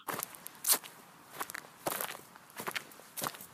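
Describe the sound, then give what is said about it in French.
Footsteps walk through a small garden, a few separate crunchy, crackling steps falling at an uneven pace with quiet gaps between them. “Dans le jardin, je marche dans des pensées sauvages.”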